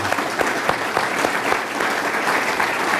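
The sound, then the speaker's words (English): An audience applauds Chairman Sen. Kel Seliger at the close of a live public conversation event, a dense, steady wash of many hands clapping that holds at an even level throughout. “Let's give the Chairman a hand, please.”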